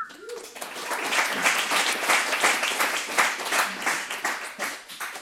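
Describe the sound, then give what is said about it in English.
A large audience at a recovery talk breaks into applause. Dense clapping swells early and continues steadily to the end. “a round of applause for doing exactly what I'm supposed to do, which is not drugs and alcohol.”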